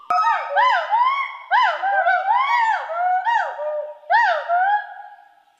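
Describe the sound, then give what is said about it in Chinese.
Gaoligong white-browed gibbons chorus overhead in the Gaoligong Mountains, giving many loud, rising-and-falling whooping calls in quick succession. The hoots overlap and repeat steadily, then fade toward the end. “现在长臂猿在我们的正头顶，然后现在是合唱，是吧？ 对，合唱。 他们的声音是呜呼呜呼这样的这种声音。”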